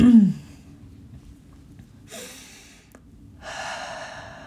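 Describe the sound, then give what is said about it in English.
A deep breath, heard as two faint, airy breath sounds without speech: a short one first, then a longer, steadier one. “Take a deep breath.”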